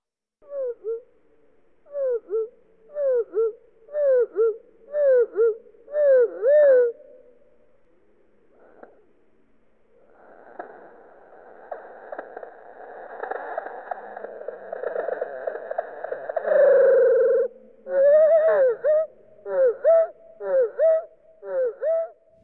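Bird song strophe slowed down eight times: a run of repeated, sweeping tonal notes, then a pause, then a longer, rough buzzing passage that swells in loudness, followed by another series of clear swept notes.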